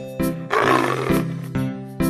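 A tiger roaring, with one long, rough, deep roar in the middle, set between shorter tonal bursts.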